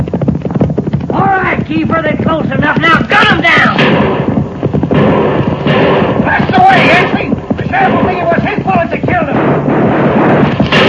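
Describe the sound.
Gunshots from an ambush in a western radio drama crack again and again in a dense, loud, chaotic stretch under shouting voices.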